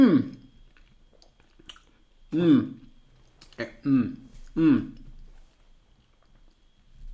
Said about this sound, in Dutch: Laat ik nu maar eens proeven.